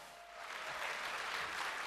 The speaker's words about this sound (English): Please, now a big applause for a hacker. They want to be called just hacker. Thank you. Now applause for a hacker.